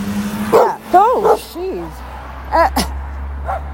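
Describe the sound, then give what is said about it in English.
Dogs yip and whine in a few short, high calls that swoop sharply up and down in pitch, with gaps between them, over a low, steady drone. “that was unexpected. I didn't see the dogs.”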